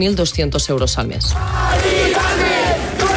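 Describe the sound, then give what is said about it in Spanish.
A crowd of protesters in the Retiro area shouts and chants at an overnight protest against a tenant's eviction over a rent hike. A man speaks briefly first, then a loud, continuous roar of massed voices takes over. “Este es el sonido de la protesta que durante toda la noche ha acompañado a Mari Carmen.”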